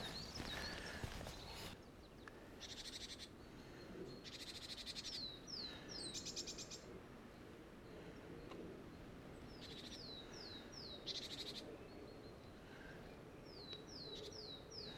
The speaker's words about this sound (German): Ja, die Vögelchen waren gerade keine 5 Meter weg. Direkt hier im Gebüsch neben dem Weg.